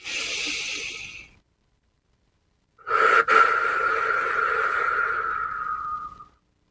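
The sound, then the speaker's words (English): Deep breathing during a guided relaxation: a short breath in through the nose, a pause, then a longer, steady breath out through the mouth with a faint whistly edge, heard alone. “And simply start first by taking a nice deep breath in through the nose, out through the mouth.”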